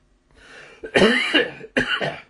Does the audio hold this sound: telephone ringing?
no